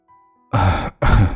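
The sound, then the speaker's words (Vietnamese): Two rough, dry coughs from an old man in quick succession, each a short raspy burst with a throaty voiced edge, heard alone without talk. “Cụ già ho khan vài tiếng trong họng rồi mới đáp:”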